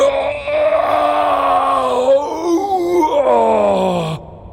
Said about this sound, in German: Plötzlich jault er auf.